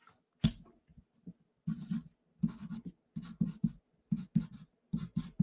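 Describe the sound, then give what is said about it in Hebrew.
Handwriting as a short word is written out: scratchy, raspy pen strokes in quick clusters of many short bursts separated by brief pauses, with no talking over them. “אם אני כותב סנייק, בואו נכתוב את זה רגע.”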